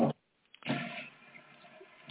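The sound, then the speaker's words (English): A toilet flush sounds after a brief noise and a short silence, swelling into a rushing wash of water that then settles into a steady, quieter hiss. “Did somebody just flush a toilet?”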